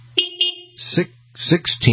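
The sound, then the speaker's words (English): A car horn honks in a steady, flat-toned blast near the start, followed by bursts of voices talking over a low, constant hum. “I love honking them horns for the shout-outs.”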